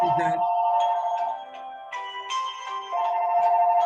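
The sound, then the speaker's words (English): A mobile phone rings with an electronic ringtone: a steady melody of sustained tones that shifts between a few pitches and plays continuously. “Yeah, that's my phone.”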